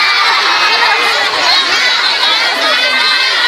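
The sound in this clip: A crowd of junior high school students shouts and cheers at a school event in Cikarang, a loud, dense and continuous roar of young voices that holds steady throughout.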